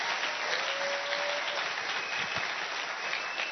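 An audience applauds during a church service, the clapping forming a dense, steady wash of sound that holds at an even level for the whole stretch, with no voices above it.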